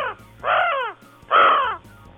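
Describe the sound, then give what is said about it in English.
Two harsh, croaking raven calls, each about half a second long with a short pause between them, sound loud over a faint low hum. “Allow me to indulge you with a raven call.”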